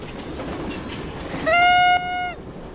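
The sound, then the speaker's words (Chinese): A train approaches on a railway line toward an accident site where track workers are present: a low, steady rumble, then one sustained horn blast of about a second midway before the rumble continues. “上行210-32列车接近事故现场。”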